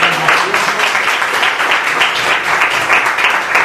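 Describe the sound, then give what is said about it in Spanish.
Applause from the audience at a class talk: dense, steady clapping that fills the whole stretch at an even, loud level, with no speech over it. “El aplauso a Juan Carlos y a Matías.”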